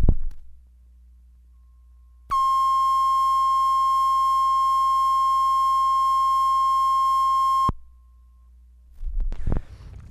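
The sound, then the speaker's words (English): A steady sine reference tone for a 7.5 IPS tape transfer sounds as a single unbroken beep lasting about five seconds, with faint brief noises before and after it. “This is camera roll 60, sound roll 60, Kennis, Silas Cinema, 7.5 IPS, reference tone for transfer follows.”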